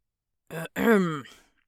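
A man clears his throat with two short voiced bursts. The second is longer and falls in pitch. It is moderately quiet against silence.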